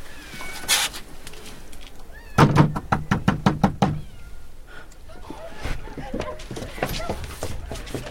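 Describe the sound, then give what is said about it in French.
Knocking on a door in a dark courtyard lined with run-down houses: a quick, evenly spaced series of loud, hard raps that comes in suddenly and stops, with quieter noises around it. “C'est là. Je frappe.”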